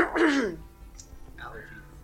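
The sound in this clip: Throat clearing from a dry throat: one short, rough, fairly loud rasp at the start, then near quiet as a faint sound trails off.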